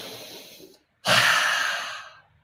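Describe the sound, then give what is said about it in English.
A hard, forceful breath is drawn in through the nose, a loud rushing inhale lasting over a second that fades out, after a softer breath and a short silent pause. “Open your mouth. Now breathe in hard. In through the nose.”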